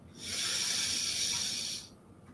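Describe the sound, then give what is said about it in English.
A long, deep breath drawn in during a guided breathing exercise: one steady, airy hiss that lasts well over a second and then cuts off, leaving faint background noise. “So I want you guys now to take a deep breath with me.”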